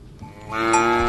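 A cow moos in one long, loud call. The call begins low and quiet, then swells into a sustained, strongly harmonic bellow that holds steady to the end.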